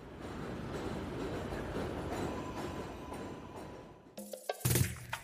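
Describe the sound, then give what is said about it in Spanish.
A train rumbles past overhead near a station, a steady low roar for about four seconds that then breaks off into a few sharp, clattering knocks. “Cuando llegamos a la panadería cerca de la estación del tren, pasa un tren por encima y...”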